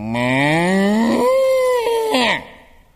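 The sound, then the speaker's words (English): A cow gives one long, loud moo that climbs in pitch, holds steady, then drops away abruptly near the end. “My old cow went.”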